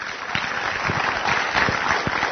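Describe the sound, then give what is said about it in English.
Audience clapping after a sermon, a steady, even round of applause from many hands, moderately loud and continuous throughout. “Oh, yeah, you can clap.”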